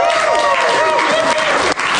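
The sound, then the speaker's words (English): A round of applause rises in a sports bar as three Warriors players join on stage. The dense clapping runs without a break, with one short dip near the end, under a speaking voice. “Let's give them a round of applause, folks.”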